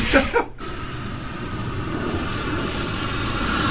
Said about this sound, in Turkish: Uçak. Doğru.